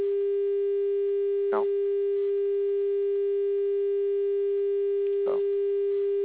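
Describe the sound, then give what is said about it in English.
A steady telephone dial tone hums on the call line without a break, its pitch and loudness unchanged, interrupted only twice by brief crackling bursts. “can you hear that dial tone or that tone? I hear that, yes.”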